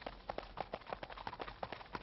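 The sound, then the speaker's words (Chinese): Faint horse hoofbeats clip-clop in a steady, quick rhythm, with many evenly spaced hollow knocks throughout and no talk. “你们听 啊， 我听见后面有马蹄声，哎，是不是啊？”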